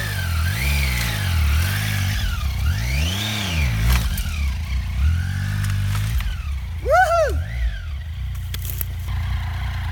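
An offroad motorcycle in Sweden revving and driving off, its engine note repeatedly surging up and dropping in pitch, with sharper high revs later on.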